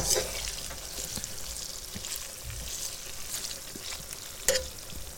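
Aubergine slices frying in a pan give a steady, even sizzle with scattered small pops and crackles, one louder pop near the end, and no talk over it.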